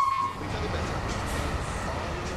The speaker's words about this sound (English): Train docks in 2 minutes. You better hurry.